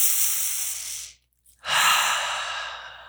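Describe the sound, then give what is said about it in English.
Two deep, slow breaths, each a long airy rush that swells and then tapers off, separated by a short silence; loud, with no speech. “Take 3 deep breaths. Right? 3 deep breaths.”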